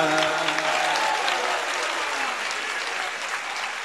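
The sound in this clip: Crowd clapping along at a religious celebration marking the Eid of Imam Ali; dense, steady applause fills the whole clip at an even loudness, with a faint voice underneath near the start.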